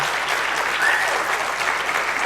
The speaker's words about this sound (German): noch stärkeren Applaus von euch haben. Und denkt jetzt bitte einfach mal, dass ihr den Applaus zum Beispiel den Förderern der Bits und Bäume widmet.